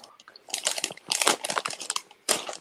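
Someone peeling and eating a mandarin: crinkly crunching and wet chewing in quick, uneven bursts of sharp crackles and smacks, fairly close and loud.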